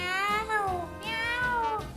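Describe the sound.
A person imitates excessive cat meowing with drawn-out, wavering meows in a nasal, high voice, the pitch sliding up and down through a continuous, fairly loud cry.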